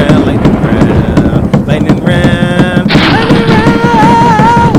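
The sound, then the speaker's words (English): Loud, heavy banging on a table during a lightning-round game comes as a dense run of hard thumps, with excited voices and shouting over them. “You're gonna break the table. It's my fucking table.”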